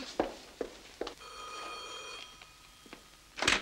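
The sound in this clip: A telephone rings once on an outgoing call, a steady, bright ring lasting about a second. A few sharp clicks come before it and a louder rustle follows.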